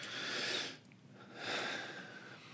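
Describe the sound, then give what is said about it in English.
Breath taken during a pause: two soft, airy breathing sounds, quiet and separated by a brief lull. “Take a breath. Okay. Have a pause.”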